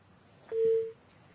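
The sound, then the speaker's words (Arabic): A single short electronic tone sounds on a phone line as a caller's connection drops during a call-in advice session. The steady, mid-pitched beep lasts under half a second over faint background hiss. “طيب الاتصال انقطع”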